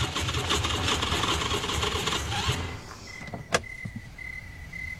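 A car engine cranks but fails to start because it is out of gas, out among cornfields. A rough, grinding churn runs for a few seconds and cuts off, followed by a few clicks and an intermittent high beeping.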